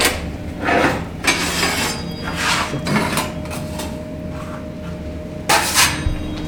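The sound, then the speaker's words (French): Metallic clanks and scrapes of an enamelling kiln door being opened, the kiln heated to about 850 degrees for counter-enamelling a plate; a few sharp knocks rise above a steady low hum. “Et après, on va rouvrir le four.”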